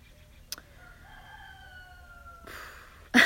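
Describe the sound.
A rooster crows once in a long, drawn-out harmonic call that holds and sinks slightly in pitch, followed by a louder noisy burst at the end.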